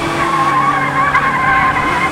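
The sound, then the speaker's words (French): Car tires skid loudly through a sharp turn, a sustained, high, tonal squeal that holds steady without a break over engine noise. “Attention, accroche-toi, ça va tourner sec.”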